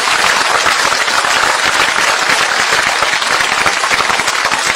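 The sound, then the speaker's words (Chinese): Audience applause at a stage show, clapping in honour of the unnamed crew: a loud, dense, continuous roar of many hands that stays steady from start to finish. “亲爱的观众，为无名英雄鼓掌吧。”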